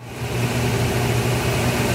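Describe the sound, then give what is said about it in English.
A 1957 Blackstone B250 top-loading washing machine in charcoal runs at high speed, said to spin at 1,100 RPM. It makes a loud, steady droning hum with low tonal undertones and no breaks. “Like it's going to take off. Oh, yeah, 1,100 RPM. That's the fastest one that was ever made for a top loader.”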